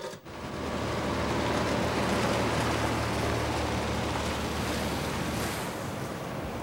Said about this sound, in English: The next day, by the pier, Jay stands with Sid, absent-mindedly picking his teeth and surveying the ocean.